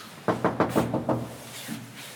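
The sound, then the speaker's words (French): Knuckles rap six times on a room door in a quick, evenly paced series of firm knocks, then a faint softer sound follows. “Bonjour, alors on toque à la porte pour savoir est-ce qu'ils sont dans la chambre.”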